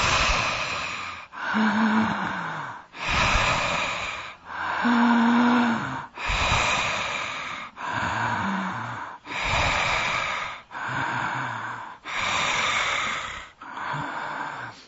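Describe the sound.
Slow, deep breaths drawn in and pushed out through the mouth during a guided breathing exercise, forming a steady series of long, loud, airy rushes with short pauses between, some carrying a faint voiced tone.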